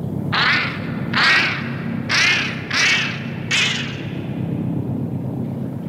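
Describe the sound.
Geese honk five times, each call a loud nasal blare spaced roughly a second apart, over a steady low rumbling background.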